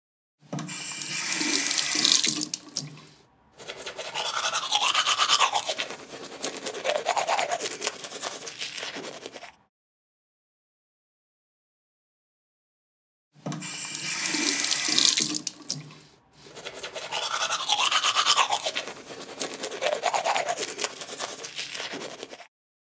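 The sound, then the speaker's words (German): Teeth are brushed at a sink while the tap runs, a rasping scrub mixed with running water. It comes in two long stretches separated by several seconds of silence, and each stretch has a short break near its start. “Genau, jetzt habe ich mir die Zähne geputzt.”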